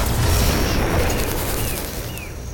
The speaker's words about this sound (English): Good grief, what just happened? The torpedo turned into a huge cube and then disappeared into ash.